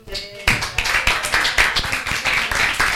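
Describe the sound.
Audience applause: a dense, steady wash of many hands clapping breaks out after a brief quieter moment and stays loud and even to the end.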